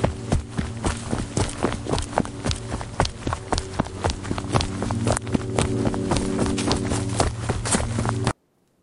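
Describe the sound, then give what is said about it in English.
Footsteps run away fast in quick, regular strides, with many steps over a steady low drone. The sound cuts off abruptly near the end. “You start to shake and you breathe heavily before you run away very fast.”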